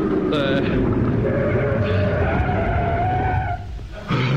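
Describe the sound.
A car braking to a stop while pulling up to the curb in town: loud, continuous engine and road roar with a skidding, squealing edge, dipping briefly near the end before rising again.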